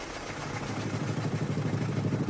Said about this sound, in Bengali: Driver handle মেরে start দিয়ে গাড়ি ঘুরঘুটিয়ার দিকে রওনা করিয়ে দিলেন।